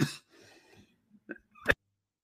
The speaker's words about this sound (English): keep coughing while doing these podcasts.